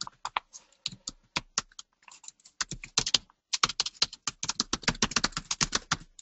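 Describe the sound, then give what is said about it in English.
Rapid typing on a computer keyboard, many crisp keystrokes in uneven bursts with a short lull near the start, heard alone without talk. “You're seeing this as I type it.”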